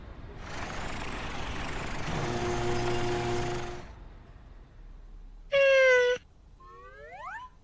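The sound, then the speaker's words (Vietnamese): A cartoon super truck arrives with a rumbling engine roar and a droning, hissing brake tone. A loud horn blast follows, then a few short, rising squeaky tones. “Bạn có thể thoải mái rồi Lily. Siêu xe tải đến giúp rồi nè.”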